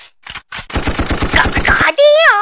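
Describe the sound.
Gunshots: a couple of short pops, then a rapid, loud burst of many shots fired in quick succession, ending in a warbling tonal sound.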